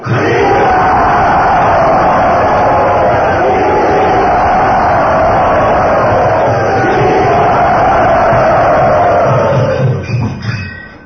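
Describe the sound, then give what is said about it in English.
Loud crowd cheering and roaring to welcome a guest at a devotional gathering, a dense, sustained wall of voices that holds steady for about ten seconds before trailing off at the end. “let us offer our thankfulness and our encouragement to him by very loudly welcoming him.”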